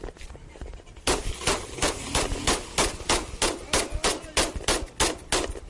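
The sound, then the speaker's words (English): Rapid gunshots from a .22 caliber revolver: many sharp, loud cracks in an even, quick rhythm that follow a short quieter opening. “his right hand swings over with a .22 caliber revolver. Shots fired, shots fired.”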